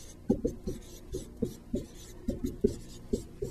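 A pen scratching on scratch paper while working a math problem: many short, dry writing strokes in a steady, uneven rhythm, fairly faint and with no talk.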